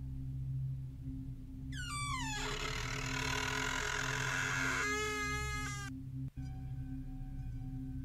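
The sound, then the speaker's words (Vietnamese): An old door that has long been shut slowly creaks open in a long, strained, rising creak lasting about four seconds over a steady low drone, followed by a brief knock. “Cánh cửa lâu ngày đóng im ỉm, bây giờ đang từ từ được mở ra.”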